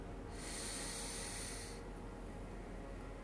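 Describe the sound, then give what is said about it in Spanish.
A deep inhale through the nose, a soft, steady airy hiss lasting about a second and a half before it stops, over a quiet, constant low background. “Vuelve a inhalar.”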